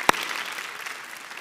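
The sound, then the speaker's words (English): A short burst of audience applause: a sharp click opens it, then dense, even clapping continues to the end. “you can give that a round of applause.”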